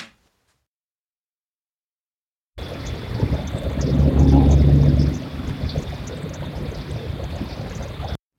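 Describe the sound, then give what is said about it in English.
A vehicle rumbles after a stretch of silence: a low, continuous wash that swells for a couple of seconds in the middle and then eases back to a steadier drone. “And that one was paired with another rumble of a vehicle, too.”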